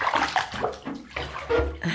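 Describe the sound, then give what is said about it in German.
Water pours into a bathtub as it fills: a loud, steady rush with a splashing, sloshing texture that shifts throughout and never breaks. “Gut. Ich lasse das Wasser ein.”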